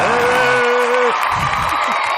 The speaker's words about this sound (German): Da mal einen großen Applaus für unsere Frauen auf diesem Planeten.